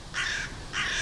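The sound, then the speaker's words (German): Crows give two harsh, raspy caws, evenly spaced and fairly loud, in a residential settlement with tall trees. Quiet background noise sits between the calls. “die Krähen wohnen bei uns.”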